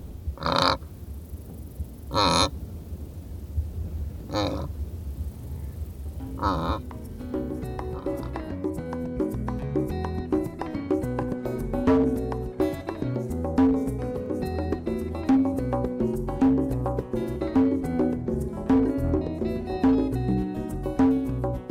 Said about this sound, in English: Mark recorded these wildebeest grazing, and you'll find his photos of the pair jousting at our website, loe.org.